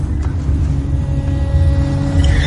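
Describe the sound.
A car being driven gives a steady, continuous low rumble of engine and road noise throughout, with no voices.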